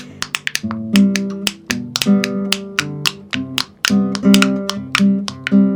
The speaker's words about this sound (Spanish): La tapa de la mermelada suena así.